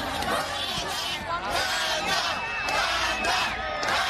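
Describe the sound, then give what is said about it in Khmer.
A crowd of thousands shouts and calls out at the Sabai Di Fest, a Southeast Asian music and culture festival in Chino, waiting for the lead performers. Dense, overlapping voices stay loud and continuous throughout. “ទស្សនិកជនរាប់ពាន់នាក់រួមមានជនជាតិខ្មែរឡាវថៃអាមេរិកនិងជាតិសាសន៍ផ្សេងៗទៀតឈររង់ចាំនិងស្រែកហៅឈ្មោះតារាសម្ដែងចម្បងប្រចាំកម្មវិធីនៅមហោស្រពតន្ត្រ”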